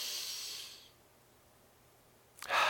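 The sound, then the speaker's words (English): Deep, hissing breaths during a guided group breathing exercise: a long, airy exhale fades out, a quiet pause follows, then a sharp, loud inhale rushes in at the end. “Ready? Deep breath.”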